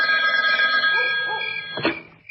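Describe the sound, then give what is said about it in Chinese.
Telephone ringing: a sustained, bright ring that gradually fades, followed by a brief knock at the end. “李成一打来的电话又响”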